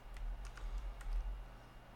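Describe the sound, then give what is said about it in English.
Faint keyboard typing as numbers are entered on a computer keyboard: light, irregular key clicks tapping over a low, steady hum. “I am typing the numbers in now.”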